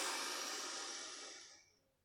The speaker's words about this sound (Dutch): In door rechts. En uit door links. Dan adem je in door links.